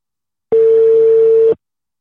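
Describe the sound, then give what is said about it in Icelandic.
A single steady telephone line tone sounds while a call is placed to another person. It is one clean, level beep at a fixed mid pitch, lasting about a second, alone against silence. “nú ætla ég að reyna að hringja í næsta mann hann á að vera svo mikið sem hér ef hann svarar”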